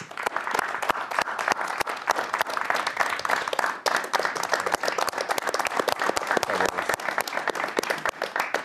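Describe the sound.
Loud, dense audience applause welcoming a basketball player as a special guest, many hands clapping in a fast, continuous patter that stays strong for several seconds.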